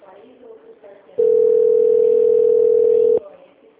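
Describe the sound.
A telephone transfer tone sounds on a company's phone line. After a brief stretch of automated speech comes one loud, continuous mid-pitched tone lasting about two seconds, which then cuts off abruptly.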